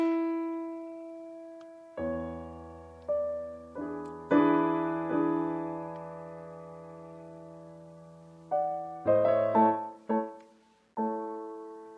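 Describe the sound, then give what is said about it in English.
Solo piano plays a classical passage with altered expression: single notes and rich sustained chords, each sounded and left to ring and fade, with uneven timing, a long held pause, then a quicker cluster of notes. “So we'll have our favorite recordings of a certain classical piece, and if I was to play this, the exact same notes a little differently, it might sound like this.”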